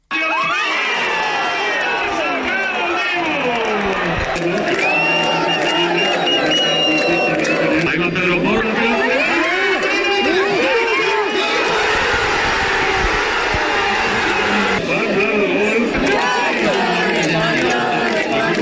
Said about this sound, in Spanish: Sonido de anoche en el Centro Botín, uno de esos puntos en los que se pudo ver esta final que se sumaba a otros tantos rincones de la comunidad autónoma que vivían esta victoria con mucha emoción.